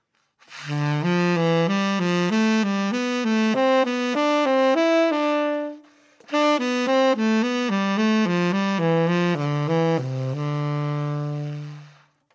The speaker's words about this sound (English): So it's just a regular D scale and third sounds like this.